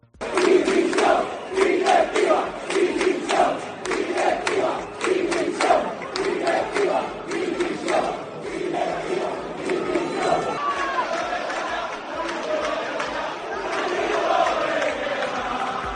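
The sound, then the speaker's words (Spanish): Rhythmic crowd chanting from a protest of football supporters against CD Tenerife's top shareholder before the match against Sporting de Gijón, with loud, pulsing chants and dense, steady voices throughout. “Unas 2.500 personas se manifestaron ayer en contra del máximo accionista del Club Deportivo Tenerife, José Miguel Garrido, en la previa del partido que enfrentó al equipo blanquiazul frente al Sporting de Gijón.”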